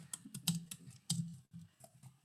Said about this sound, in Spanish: Ay, lo escribí mal. Disculpa, esto no sirve bien mi teclado.